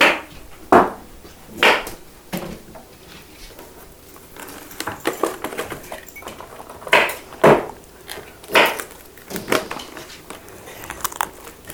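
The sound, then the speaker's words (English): Sharp knife chopping carrots on a cutting board: a series of crisp, irregular cuts, some louder than others, with short pauses between bursts of chopping. “Really sharp knife. You know how to cut up vegetables. You got to cut them up a little finer. More on a slant because of the little thing.”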